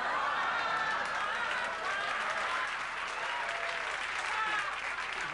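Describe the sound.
Audience applause at a stand-up comedy show comes as steady, dense clapping that stays loud and even from start to finish.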